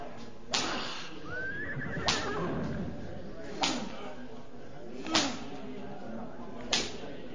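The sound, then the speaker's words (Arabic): A horse whinnies once amid five sharp, evenly spaced whip-like cracks as horses are driven to bolt, all over a steady rumbling background. “الخيول جريت.”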